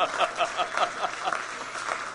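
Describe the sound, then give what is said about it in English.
A short round of applause at a pledge gathering. The claps are brief and come in small bursts, and the applause is fairly soft. “You get a round of applause, too.”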